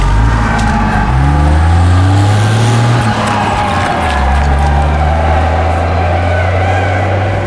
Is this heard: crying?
no

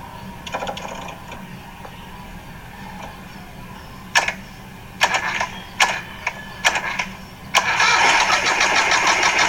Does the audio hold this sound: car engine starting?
yes

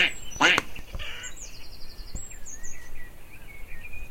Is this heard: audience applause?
no

